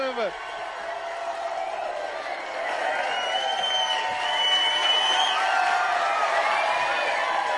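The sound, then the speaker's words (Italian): A wrestling show crowd gives a sustained ovation as a match begins, with whoops, whistles and cheering. The sound swells louder partway through, and a voice talks over it. “Inspiegabile ovazione del pubblico per tutto questo.”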